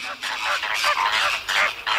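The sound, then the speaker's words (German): Flamingos calling: many harsh, nasal honks and gabbling bursts tumble over one another in quick, uneven succession at a fairly loud level. “Hättet ihr es erkannt? Das ist der Sound der Flamingos.”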